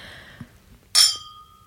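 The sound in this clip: A single bright clink of crystal glasses meeting in a toast, sharp and ringing, then fading quickly into quiet.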